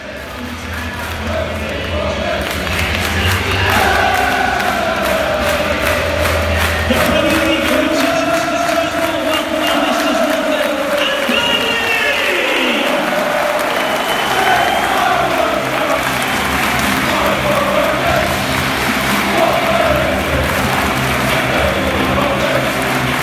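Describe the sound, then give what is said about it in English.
Football crowd at Turf Moor as Watford come out for their first away Premier League game of the season on a Sunday afternoon: a loud, continuous roar of cheering, with chanting layered over it throughout. “The sound then as Watford come out here at Turf Moor, 25 past one on Sunday afternoon.”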